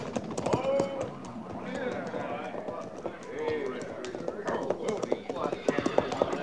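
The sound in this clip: Hoofbeats of a horse as a cavalry patrol rider approaches, a quick, rhythmic clatter running continuously beneath voices talking.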